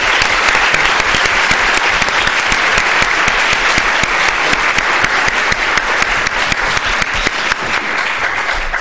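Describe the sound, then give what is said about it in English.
An audience applauds to welcome a lecturer, with many hands clapping in a dense, steady, loud burst that carries evenly for nearly nine seconds. “Please join me in giving Professor Tomasello a very warm welcome.”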